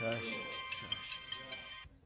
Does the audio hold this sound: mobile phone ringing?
yes